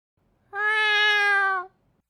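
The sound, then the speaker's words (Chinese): A cat yowls once, a loud harmonic cry lasting about a second and holding an even pitch, heard alone against silence. “紧接着就是一声暴力的猫叫。”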